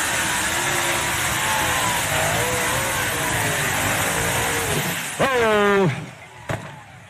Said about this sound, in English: Those Ellis motors were singing.